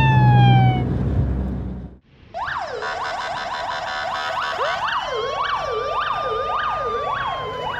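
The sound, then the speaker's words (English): A fire truck siren wails loudly, its rising tones giving way to quick repeating up-and-down sweeps layered over a steady high tone that carry on to the end. “Fire truck.”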